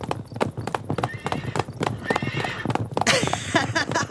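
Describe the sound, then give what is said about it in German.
Horse neighing while being ridden: steady clopping hoofbeats run throughout, and a loud whinny breaks out near the end, with voices speaking over the hooves. “Du musst aber hinter mir auf Babuschko sitzen. Schon oben. Und jetzt? Reiten wir erst mal.”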